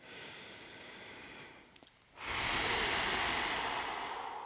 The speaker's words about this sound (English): I'm running out of breath because I'm talking so much. 1 second. I'm kidding. I do need to take a breath, though.